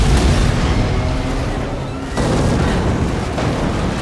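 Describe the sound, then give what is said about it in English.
An armored vehicle explodes in a battle scene amid gunfire, a dense, loud low-frequency roar of blast and debris that surges again sharply about halfway through and rumbles on without fading. “They take shelter behind an armored vehicle, which immediately explodes.”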